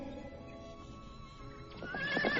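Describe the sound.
A horse ridden in haste whinnies, its shrill, wavering call swelling louder toward the end over a steady, faint tonal background.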